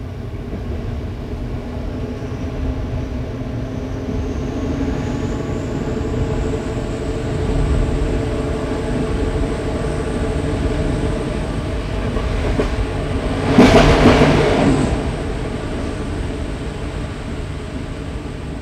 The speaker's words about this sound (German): Und wie der Zug durch die Wälder jagt. An Dörfern und Tümpeln vorbei.